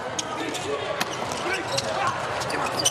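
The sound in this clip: A volleyball is served and struck during a Poland–Ukraine match. A few sharp ball impacts ring out over a steady bed of crowd noise.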